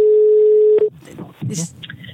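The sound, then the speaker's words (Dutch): A phone rings while a call is placed: one steady tone lasting under a second cuts off as the call is answered, and a voice speaks right after. “Laten we haar even bellen.”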